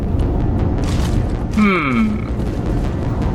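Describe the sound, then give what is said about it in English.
A melee attack in a video game produces a brief, understated swoosh with a falling tone. It stands out only briefly over a steady background rumble. “Remarkably little fanfare when you do a physical, when you do a melee attack.”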